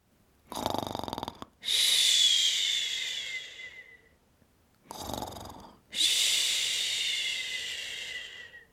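A sleeping child breathes heavily: two slow breath cycles, each a rough, snoring intake followed by a long, loud, hissing exhale that fades gradually.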